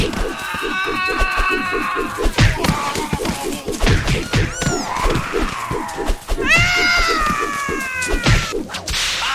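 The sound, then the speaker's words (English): A person imitates screams, giving a few shrill, high vocal cries that rise and bend in pitch, over a busy run of rapid, regular thuds. “people wanted me to make screams for this.”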